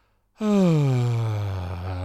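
A rasping, voiced exhale used as a breathing technique to calm stage fright. It begins abruptly and strongly, then slides downward in pitch into a low, steady groan-like rasp that fades slightly, heard alone with no talk.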